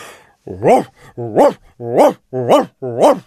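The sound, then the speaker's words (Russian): A huge black dog barks in a deep bass voice, five loud, full-throated barks in a steady, even rhythm. “Ревел басом милорд, огромный черный пес, стуча хвостом по стенам и по мебели.”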